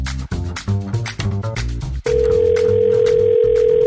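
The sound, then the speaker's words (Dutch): A steady, single-pitched telephone ringing tone while a call is being placed. It starts abruptly after a stretch of music and holds for about a second and a half while the music continues underneath. “Ik ga bellen met het mooie Twello.”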